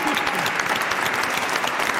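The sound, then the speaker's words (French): Studio audience applause for a guest on a French radio show: dense, steady clapping that fills the whole two seconds at an even level. “On n'a pas applaudi déjà”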